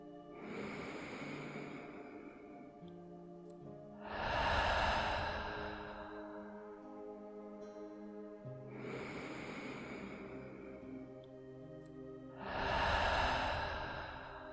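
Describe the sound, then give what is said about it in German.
Two deep breathing cycles, each a drawn-in inhale followed by a long, slow, sighing exhale, soft and unhurried with no other sound. “Noch einmal tief einatmen und lange und lösend ausatmen. Noch zweimal.”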